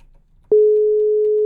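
A steady telephone line tone follows a call-in phone connection dropping during a radio weather report. It is one continuous mid-pitched tone that starts abruptly after faint low noise and holds loud and unchanging to the end.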